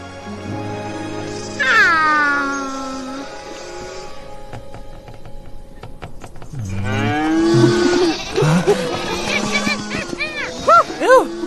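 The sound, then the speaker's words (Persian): A herd of cattle lowing, with several long, drawn-out moos spread across the scene, one early and a cluster of overlapping calls later, separated by quieter gaps. “بل بچه ها گله رو پیدا کردیم.”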